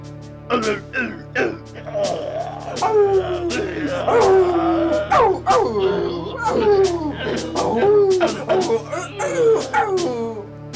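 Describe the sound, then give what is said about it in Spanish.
Yelping and howling of a dog biting a wolf that howls in pain: many sharp, falling cries and whines in quick, irregular succession, loud throughout. “Y vieron cómo el perro mordía al lobo que aullaba de dolor, dejándose caer como un muerto.”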